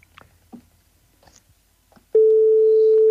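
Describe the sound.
A telephone tone sounds after a call is cut off: faint, scattered sounds give way to a sudden, loud, steady single-pitched tone that holds unbroken to the end.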